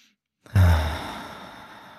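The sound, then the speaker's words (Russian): One deep breath out during a guided relaxation exercise: a long, breathy sigh that starts abruptly after a moment of silence and slowly fades away. “И, как обычно, сделаем сейчас пару глубоких вдохов и выдохов.”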